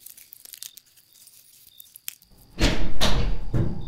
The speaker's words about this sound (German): Wieso öffnet sich die Tür von selbst?